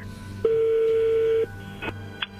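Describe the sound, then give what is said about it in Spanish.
Telephone dialing tones as a number is redialed during a call-in: a steady tone holds for about a second, then a couple of short, sharper beeps follow. The tones stand alone. “A ver, márcala de nuevo.”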